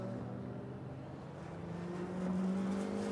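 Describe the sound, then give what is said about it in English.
A Penske Porsche prototype race car at the 2023 Daytona endurance race picks up speed again: a faint, steady engine drone that grows slightly louder and higher in pitch toward the end. “Fraga is moving again and moving at pace. Heart-in-mouth moment for Penske Porsche Motorsport.”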